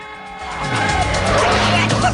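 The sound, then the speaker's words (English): A car swerving left onto another road at high speed: engine roar and tyre noise swell up after a quieter start, then hold loud and sustained to the end. “swerves left onto another road at high speed”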